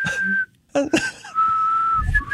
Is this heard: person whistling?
yes